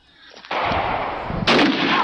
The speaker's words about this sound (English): Oh shit! That whole thing exploded, dude.